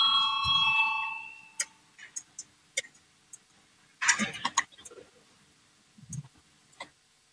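A bell rung to call a vote on a proposal in a legislative session gives a bright, sustained ringing tone that fades within about a second and a half, followed by scattered sharp clicks and knocks.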